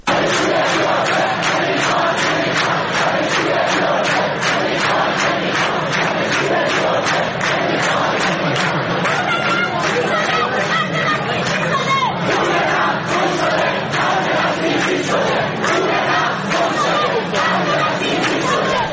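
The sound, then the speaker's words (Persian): University students at a protest rally at Tehran University chant slogans in unison, a loud, dense crowd roar with a steady rhythmic pulse of shouted phrases over continuous hubbub. “امروز در دانشگاه تهران هم دانشجوها برای ساعاتی دست به تجمع زدن و شعارهای مختلفی رو میدادن، از جمله این که پول نفت گم شده، خرج بسیجی شده.”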